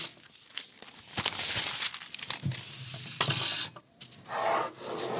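Drawing strokes as an eleven-storey high-rise and a fine crack in a wall are sketched: irregular scratchy, rasping rubs, some short and quick, others longer, varying from faint to moderately loud.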